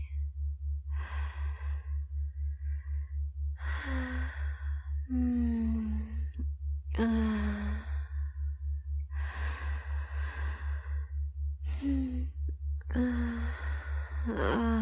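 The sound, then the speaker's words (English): Slow, deep breaths and soft sighing exhalations come in an unhurried, regular rhythm during a relaxation exercise, over a steady low pulsing hum. “Breathe with me.”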